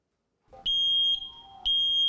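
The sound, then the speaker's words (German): A smoke detector chirps in sharp, high-pitched electronic beeps, two loud tones about a second apart with a faint lower tone between them, alone with no talk. “Piepsen im Akkord. Funktioniert. Und Rauchmelder einbauen im Akkord.”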